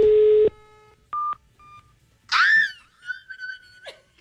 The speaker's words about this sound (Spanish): ¿Llamo otra vez? Sí. Pues marquémosle a ver si de pronto...